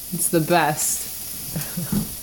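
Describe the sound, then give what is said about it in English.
Vegetables sautéing for enchiladas in a home kitchen give a soft, steady sizzle beneath a short spoken remark. “But we're here in the lovely kitchen of the main house, cooking dinner. The noises you hear, we're sautéing vegetables for enchiladas.”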